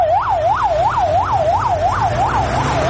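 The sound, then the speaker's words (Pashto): An ambulance siren wails during a flood rescue in Charikar, Parwan province, sweeping rapidly up and down about eight times in a steady, loud cycle over a low engine rumble. “د مړو او ټپیانو لېږدولو ته امبولانسونه تیار دي.”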